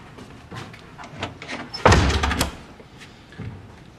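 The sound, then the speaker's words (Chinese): A door is shut with one loud, sharp slam midway through, standing out against quieter scattered background noises before and after. “把门关上。”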